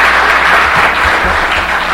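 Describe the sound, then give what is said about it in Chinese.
Dense, steady applause from a church audience for its co-workers and volunteers: a loud, continuous patter of many hands with no voices above it. “我们要谢谢华夫的同工们啊和义工们啊，给他们掌声”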